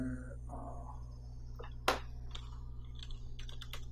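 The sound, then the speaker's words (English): Faint taps on a computer keyboard as a token is typed in: a few scattered, soft key clicks over a steady low hum. “Okay, let's type it in”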